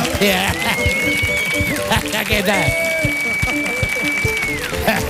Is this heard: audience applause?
yes